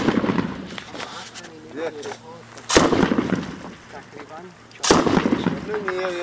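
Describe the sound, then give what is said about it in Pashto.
Two sharp, loud gunshots from hunting rifle fire aimed at a security post on a main road, spaced about two seconds apart, cutting through ongoing voices. “هره شیبه د عمومي سړک پر امنیتي پوسته د ښکاري ټوپک ډزې کوي”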